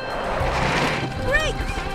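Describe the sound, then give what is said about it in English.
A cart is struck in a race and crashes off the road: a short smash and rattle under voices. “Charlie brakes and they hit the cart. It flies off the road.”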